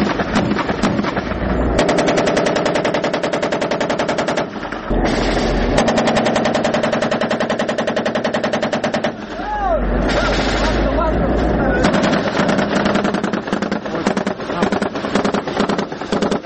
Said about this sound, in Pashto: د دواړو طرفونو څخه یو پر بل پریمانه ډز کیږي، ځکه خو سرتیر په خپل منځ کې خبرې نه اوري.